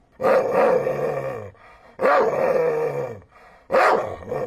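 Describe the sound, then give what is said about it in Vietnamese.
Dogs barking, howling and growling in three long, loud, harmonic bursts. Each lasts over a second and is separated by a short quiet gap. “Giây lát sau, nhiều âm thanh ồn ào rùng rợn vang lên. Tiếng sủa, tiếng hú, tiếng gầm và tiếng chu, tiếng rít và tiếng rên.”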